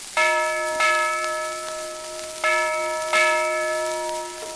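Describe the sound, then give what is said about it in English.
A big bell rings as a boat lands on the Ohio River. Four loud, clear strikes fall in two pairs, and each rich metallic tone hangs on and fades before the next. “No, that boat I'm landing. Don't you hear that big bell ring?”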